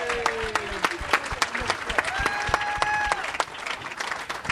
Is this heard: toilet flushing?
no